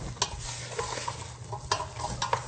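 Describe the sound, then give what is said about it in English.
Pre-peeled, pre-cut sweet potato chunks are stirred in a sizzling pan, a few sharp scraping clicks from the utensil cutting through a steady, soft frying hiss. “I'm going to put these pre-peeled and pre-cut sweet potato chunks in here. I will just give these a stir.”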